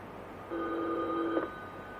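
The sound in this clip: A single telephone ring, a bright steady electronic tone lasting about a second before cutting off abruptly, fairly quiet with no voices.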